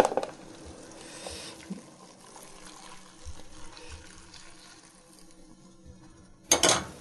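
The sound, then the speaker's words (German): Sauce stock being poured from one pot into another vessel in a kitchen: a faint, steady liquid pour with a few soft knocks, ending in a short, louder burst of splashing. “die Soße, den Fond in einen anderen Topf oder in ein Gefäß umgießen.”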